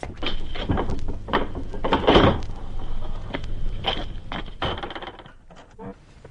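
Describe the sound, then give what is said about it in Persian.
A guard opens a door for a lawyer who wants to leave: a few sharp clunks, clicks and rattles of the door and its fittings, with a faint hum underneath and quiet movement at the end. “درو باز کن، من میخوام برم بیرون. اطاعت قربان.”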